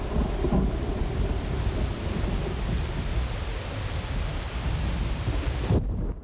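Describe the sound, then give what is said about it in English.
Heavy rain pelts the fields during a thunderstorm, a dense, steady hiss with a low rumble of thunder beneath it. The sound stays loud and even throughout, with no voices. “clearly enjoying the thunderstorm. Rain pelts the fields outside.”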